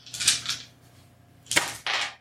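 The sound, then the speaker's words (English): Rattling clatter of a large handful of dice rolled during a Shadowrun tabletop game, heard as a few sharp, bright bursts of plastic clicking separated by a brief lull. “I think this might actually be the most dice I've ever got to roll.”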